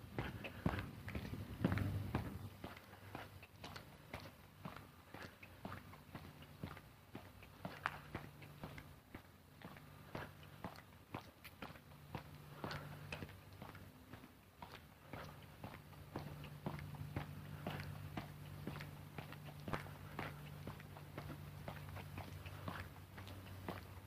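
Footsteps of a person walking, many steady, evenly paced steps over a low continuous hum.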